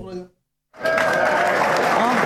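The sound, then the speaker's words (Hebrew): Audience applause welcoming a DJ onto a stage: a short voice and a brief silence, then a dense, steady clatter of clapping that holds at full level, with voices over it. “עכשיו אני יכולה להתחיל לדבר, יש מחיאות כפיים, ככה אני רגילה.”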